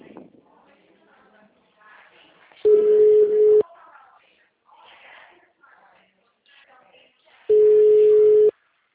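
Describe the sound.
Telephone line tone after a dropped call: two steady, mid-pitched tones about a second long, several seconds apart, with faint muffled voices and noise between them.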